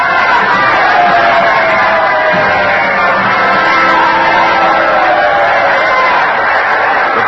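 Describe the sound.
A packed theater audience stands, cheering and welcoming the president in a dense, continuous crowd roar with a dull, muffled tone. It holds steady and fairly loud throughout, with indistinct voices blending into the noise.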